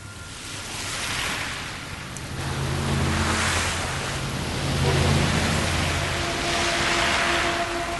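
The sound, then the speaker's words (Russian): A heavy rain downpour over a city, a dense, steady hiss that swells and eases in slow waves, with a faint low hum underneath and no talk. “Ливень покрыл город.”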